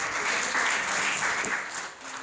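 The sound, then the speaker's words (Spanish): Congregation applauding in a church service, a steady, dense wash of clapping that holds at an even loudness for about two seconds, with no talking over it. “Denle un aplauso al Señor Jesús ahí.”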